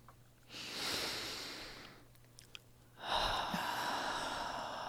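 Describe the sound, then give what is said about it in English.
A deep, slow breath, heard as two long, soft, airy swells of breathing separated by a short pause. The breathing is faint and there is no talk. “Let's just all take a deep breath.”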